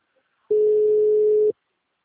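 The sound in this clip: A telephone call tone: one steady, pure, mid-pitched beep lasting about a second, heard alone and cutting off abruptly.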